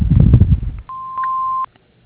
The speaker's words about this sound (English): so leave a message after the tone and we'll get back to you as soon as we can.